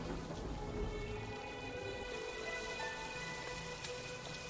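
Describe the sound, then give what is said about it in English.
Steady rain falling on a street, a dense unbroken hiss that holds at an even level throughout, with no voices or other distinct events. “walking down the street in a trench coat in the rain”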